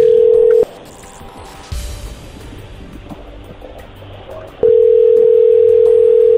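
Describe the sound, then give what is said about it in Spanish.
A telephone dial tone sounds as a call is placed during a phone prank challenge: a loud, steady single-pitched tone cuts out into a stretch of low background noise with soft rumbling, then the same tone returns and holds to the end. “en este momento se está marcando.”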